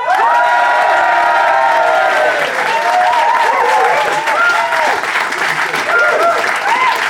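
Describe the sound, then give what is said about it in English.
A live studio audience applauding and cheering during a comedy show vote, with loud, sustained clapping for about seven seconds mixed with whoops and shouting voices. “I'm going to throw it open to our live audience. If you think Matt and Fanshawe, and therefore Carol, is in the right, applaud now.”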